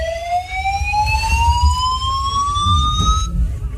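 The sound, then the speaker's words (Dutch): Building evacuation alarm: a continuous electronic tone climbs slowly and steadily in pitch, bright harmonics stacked above it, holding loud for about three seconds before it cuts off near the end. “En dan nu een evacuatie. Nee, dit was pas geleden hier in het gebouw, moet je horen.”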